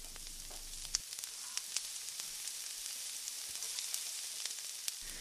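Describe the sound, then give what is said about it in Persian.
Onions fry in a pan with a steady, bright sizzling hiss, broken by a few small sharp pops and crackles. The sound is fairly quiet and even throughout, with no talk. “خب شروع میکنم که پیاز داغم رو آماده کنم”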